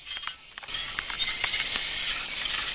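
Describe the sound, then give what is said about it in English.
A small pressurized canister sprays onto a wire fence in the snow. After a quiet moment, a bright, steady hiss starts and keeps going, with a few faint clicks mixed in. “He takes a small pressurized canister from his bag and sprays a large square onto the wire.”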